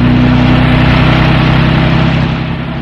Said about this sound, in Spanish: el árabe hunde el acelerador, proyectando el vehículo en la cinta asfáltica.